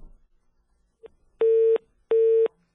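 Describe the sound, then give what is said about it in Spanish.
A telephone busy signal sounds after a dropped call on a phone link during a Mexican morning news program: a faint click, then two identical, evenly spaced steady beeps, loud and alone. “se cortó la llamada”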